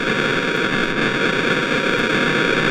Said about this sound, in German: das Geräusch